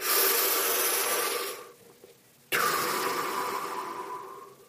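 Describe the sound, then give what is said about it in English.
Deep breathing blown straight into a microphone during a breathing exercise: two long, harsh, rushing breaths with a brief quiet gap between them. Both are loud and noisy, and no one talks. “There's nothing like blowing into a microphone. I'm sure it sounds great as I'm recording this and thinking about that. In, out. In, out. It's aggressive breathing techniques.”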